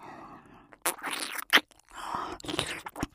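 Wet licking and slurping mouth sounds arrive in a few separate bursts with sharp smacks between them, soft in places and louder in others, with no talk.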